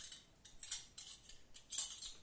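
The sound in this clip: Spoons clinking together in a musical, rhythmic way: bright, light metallic taps in an uneven series of short bursts, quiet and heard alone without any talk.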